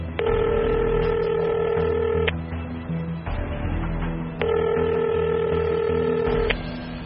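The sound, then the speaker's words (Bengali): A phone call is placed and the ringback tone sounds: two long, even ringing tones of about two seconds each, separated by a pause, over a steady low background rumble. “মনার সঙ্গে কথা বলতে বলতে অঞ্জলিকে phone করল দিগন্ত।”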